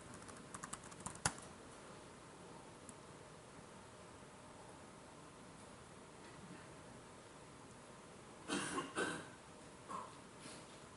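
Someone types a username and password on a computer keyboard. Faint clusters of quick key clicks come at the start and again near the end, with quiet hiss between them.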